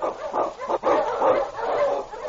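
Sled dogs, Eskimo huskies driven through storm and snow, bark and yip together in a dense, continuous chorus of overlapping calls with no clear break.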